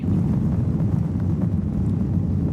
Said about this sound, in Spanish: Hoy nos hemos subido de nuevo en avión de Iberia.